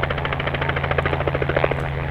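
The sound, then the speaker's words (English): A black helicopter swoops past a herd of wild horses running across western Utah's high desert. Its rotor drone is loud, steady and continuous, with no talking. “A black helicopter swoops past a herd of wild horses running across western Utah's high desert.”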